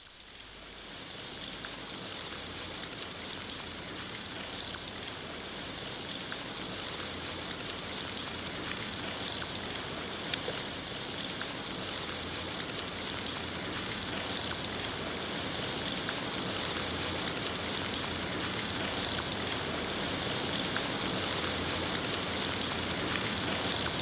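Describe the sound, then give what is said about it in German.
Rain falls outside at night in a steady, dense hiss of drops that stays even throughout, with no voices or other sounds. “Aber dann müssen sie hinaus und draußen ist Regen.”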